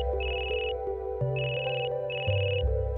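A telephone rings for an incoming call as three bursts of high, warbling electronic tone, separated by short gaps, over steady lower tones.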